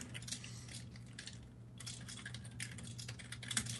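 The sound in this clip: Typing on a computer keyboard, a faint steady patter of key clicks with brief pauses over a low background hum.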